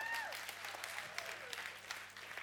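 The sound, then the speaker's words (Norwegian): Faint applause from an audience clapping for fathers, a soft, continuous patter of many hands that holds at a low, even level throughout with no talk. “Vi klapper for far!”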